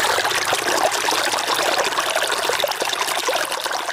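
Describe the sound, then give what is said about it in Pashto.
Water flowing as a farmer irrigates his field: a continuous, fairly loud trickling rush that holds at an even level throughout, with no talk. “چې اوس مهال د خپل زمکی په خړوبولو بوخت دی”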